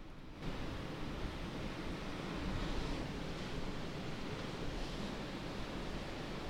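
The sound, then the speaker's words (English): Gulf of Mexico waves lap gently against sand as a faint, continuous wash of soft surf hiss. It stays low and even throughout, with only slight swells in loudness and no talking. “the sound that you just heard, or maybe you didn't hear, is the sound of the Gulf of Mexico lapping gently against the sands of”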